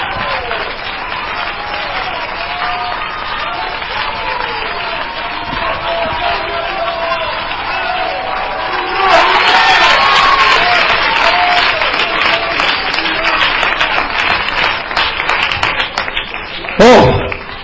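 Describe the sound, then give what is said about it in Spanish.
Applause from a church audience during a sermon: steady, dense clapping runs throughout and swells louder about halfway through, with voices mixed into the crowd noise. “Que el aplauso sea más grande que el para Cristo, que murió por mí en la cruz del Calvario.”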